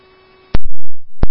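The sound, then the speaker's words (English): Fire dispatch alert tones: a steady mid-pitched electronic tone holds for about half a second, then breaks into a few loud, clipped bursts with a lower buzzing tone between them. “Copy tones received at 2146.”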